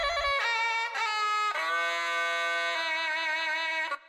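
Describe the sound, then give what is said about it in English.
A binai, the Thai oboe-like instrument played at boxing matches, sounds a bright, nasal, reedy trill, a sustained buzzing tone that steps between a few pitches before cutting off. “Similarly, the binai, the oboe-like instrument played at Thai boxing matches, plays notes at intervals that couldn't be mimicked on the piano. In fact, if you take this binai trill,”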